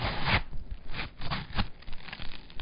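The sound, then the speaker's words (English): A knife cuts open a watermelon with a series of crunchy, tearing, scraping sounds in uneven bursts as the blade works through the rind. “Here, let me show you. I'll just cut this watermelon open.”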